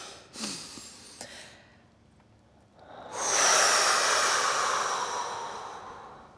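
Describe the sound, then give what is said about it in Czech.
A group of people breathes in together through the nose, a long airy hiss that swells and holds, then slowly tapers off. A brief, sharp sniff comes earlier. “Takže se teďka všechny nadechneme nosem.”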